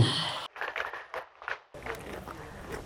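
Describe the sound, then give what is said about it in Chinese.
Pony chewing its food beside an inn, a few uneven crunching bursts separated by short gaps, fairly quiet and with no talk. “我现在在客栈的两匹小马马道和成功旁边，你听到的是他咀嚼食物的声音。”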